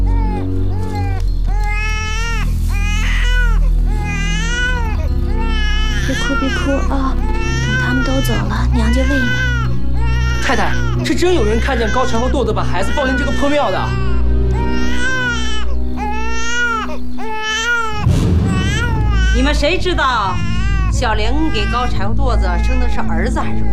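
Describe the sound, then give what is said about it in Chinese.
An unfed, hungry infant cries loudly and without stopping, in repeated high wailing bursts that rise and fall in pitch throughout. “你的孩子你不喂，让他哭成这样”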